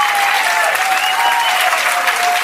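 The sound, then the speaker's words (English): Loud, dense applause from an audience giving a standing ovation, a steady unbroken wash of clapping that holds at full strength from start to finish. “And a standing ovation. The black women in the audience are the first to give her a standing ovation.”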